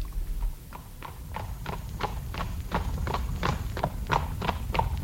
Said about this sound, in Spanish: El príncipe y Blanca Flor partieron al galope.